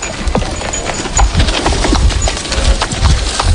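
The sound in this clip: A cart used for neighborhood garbage collection rattling along with steady clip-clopping and wooden clatter, a dense, continuous stream of knocks and rumble.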